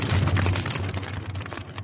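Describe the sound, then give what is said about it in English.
Lab chemicals and equipment igniting into a blazing fire: a dense, loud, continuous roaring rush with crackling texture throughout, without voices. “the two figures smash into chemicals and equipment, which ignite into a blazing inferno.”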